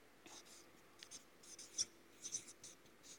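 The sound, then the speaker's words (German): A word, Arbeit, is written by hand, making faint, quick scratching strokes in short irregular bursts with brief pauses between them. “Und ich schreibe jetzt einfach mal Arbeit hin.”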